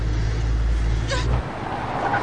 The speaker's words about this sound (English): Thelma pulls the car up by the side of the road as a huge truck trundles past them.